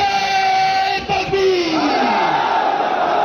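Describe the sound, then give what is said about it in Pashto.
A crowd chants a slogan at a peace gathering in Sadda, Kurram, many voices shouting together in a loud, sustained roar with held, wavering tones and no break in the noise. “دا ناره د کورمې په صده کې د امن په سوم په نوم وستل شوی د یوې غونډې پر وخت او حل شوې.”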